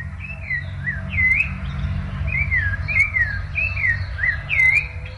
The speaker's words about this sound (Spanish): Ahí está el zorzalito cantando.